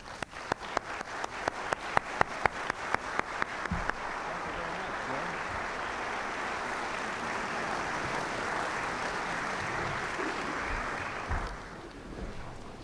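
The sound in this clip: Audience applause welcoming a speaker back home, opening with a run of distinct, evenly spaced claps that merge into dense, sustained clapping, then thinning and fading near the end.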